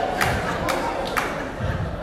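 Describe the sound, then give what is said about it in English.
Cheering from a church audience: a lively crowd roar with shouted voices and a few dull thumps popping out above the steady din. “All I'm doing is saying there's some more cheering. More cheering. Bring them out the back room. Here they come.”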